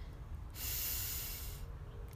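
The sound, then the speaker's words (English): A single deep breath taken during a guided relaxation exercise: a steady, airy hiss lasting about a second, rising out of and sinking back into a low background rumble. “take a deep breath in”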